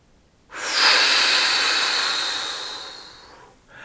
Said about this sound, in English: And your last breath brings you all the way back in. Big inhale and blow.